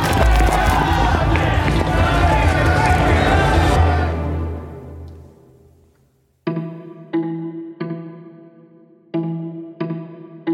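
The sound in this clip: People fleeing on foot in a dense burst of running and crowd commotion that stays loud for several seconds and then fades out, followed by a series of sharp, echoing tonal hits.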